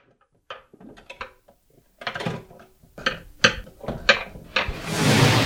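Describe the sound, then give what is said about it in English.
Washing dishes in a washing-up bowl: a run of clinks, knocks and clattering crockery in an irregular rhythm, building to a steady wash of noise at the end. “There he is, slaving over a hot washing-up bowl.”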